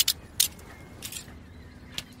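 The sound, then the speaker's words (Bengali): Keys clink as a key taken from a man's pocket unlocks a chain around someone's feet. A few bright, sharp metallic jingles come in short bursts over a low, steady hiss. “লোকটার pocket হাতড়ে একটি চাবি পেল অর্জুন, সেই দিয়ে নিজের পায়ে chain সে খুলে ফেলল।”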